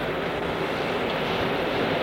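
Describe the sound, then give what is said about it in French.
Sea waves wash onto a beach at night as a steady, even surf hiss with no distinct breaking crashes, heard alone. “On entend le bruit de la mer.”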